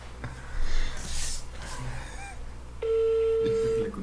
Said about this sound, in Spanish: Ya, ya, esto ya estoy marcando.